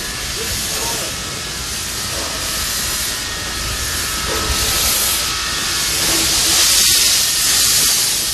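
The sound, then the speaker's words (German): A continuous loud hiss from a mine railway locomotive being moved into position, with a low rumble beneath that swells slightly toward the end. “Bevor es losging, wurde schließlich noch die Lok in Position gebracht.”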